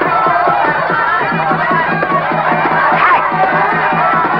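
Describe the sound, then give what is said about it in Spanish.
Loud crowd cheering and shouting from spectators at a fight, a dense, sustained roar that holds steady throughout with a pulsing, rhythmic edge. “El árbitro inicia la cuenta jaleado por el público.”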